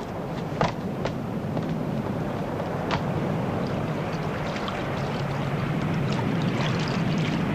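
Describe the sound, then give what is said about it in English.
Steady wash of water as a ship's boat, launched from a schooner, moves across a calm sea, with a few faint knocks early on over the continuous low rushing. “As the ship's boat slowly nears the raft, Larson watches.”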